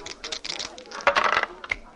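Dice clatter as they are thrown in a game of craps, a quick run of sharp clicks and rattles that grows louder in the middle and then fades to a few last taps.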